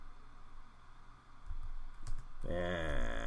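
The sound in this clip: Typing on a computer keyboard while searching for something online, heard as a run of quick, soft key clicks at a low level; a voice begins talking over the typing near the end.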